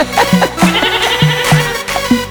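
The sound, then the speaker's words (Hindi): Goats bleating in a quick run of several short, nasal bleats, each sharp at its start and closely spaced in an uneven rhythm. “आजकल की बकरियां बे बे करती”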